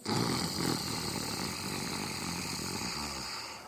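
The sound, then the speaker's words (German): A person deliberately makes a snoring-like inhale through the throat as part of a breathing exercise: one long, continuous rasping breath that holds steady and slowly tapers toward the end. “Atme zunächst sehr tief vollständig aus. Dann atme ein mit diesem Schnarschklang.”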